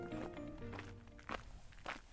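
Footsteps climb down into a large chalk quarry at Stevns Klint on a windy day. A few faint, uneven crunching steps sound against a soft, continuous rush of wind.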